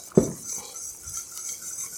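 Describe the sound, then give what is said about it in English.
A utensil stirring melted cheese into a mustard sauce: one sharp clink against the pan, followed by faint, soft scraping and swirling. “Stir it up until it's nice and smooth.”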